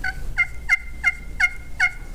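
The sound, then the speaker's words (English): A hen turkey calls softly in the morning with a steady series of short, evenly spaced yelps, each a brief two-note call, moderately loud over a low rumble with no talk. “When a hen turkey wakes up in the morning, it's kind of like us.”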